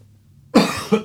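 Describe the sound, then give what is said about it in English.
A dry cough from a person with a lingering cough: one abrupt, rough burst followed closely by a second shorter hack, loud against near silence. “excuse me, I'm still struggling with a little bit of a dry cough, if you will.”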